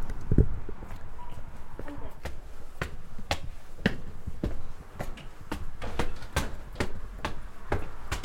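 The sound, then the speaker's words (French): Footsteps climbing stairs at the Château des Bachelards, a long series of sharp, evenly spaced steps in a steady rhythm, heard under and between people talking. “Je vous invite à monter les marches sur votre gauche. Ça marche, merci, j'arrive.”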